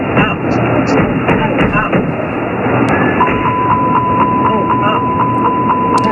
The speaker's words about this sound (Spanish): Esto que escuchas es una recreación del forcejeo que impidió al comandante recuperar el control del avión.